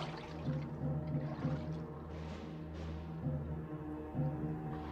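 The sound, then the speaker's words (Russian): Rushing water as a silvery submarine cuts quickly through the deep water and surfaces, heard as a steady, fairly loud wash and swirl that continues without a break. “Толщу воды быстро рассекает серебристая подводная лодка. Всплывает.”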